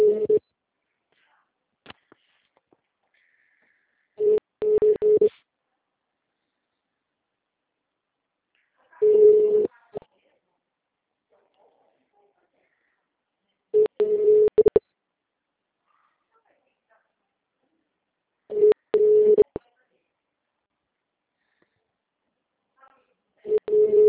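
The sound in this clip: Telephone ringback tone heard while calling a city hall office, a low, steady tone sounding in four full rings spaced about five seconds apart, with partial rings at the start and end and silence between them.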